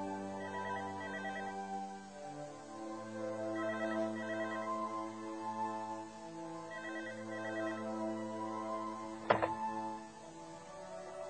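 An electronic melodic ringtone from a telephone signals an incoming call, repeating the same short tonal phrase several times at a moderate level, followed near the end by one sharp thunk.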